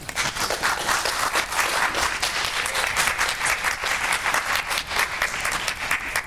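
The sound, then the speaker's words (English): An audience applauds the introduction of a monsignor as a speaker, with loud, dense and steady clapping that continues evenly for several seconds. “So please help me welcome Monsignor Riley.”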